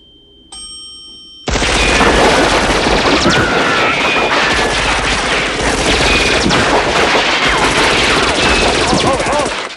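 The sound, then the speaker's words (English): Automatic gunfire aimed at a descending elevator: a brief quieter tonal chime, then a sudden, loud, continuous barrage of rapid shots that runs to the end. “Guns at the ready, they wait for the lift to descend.”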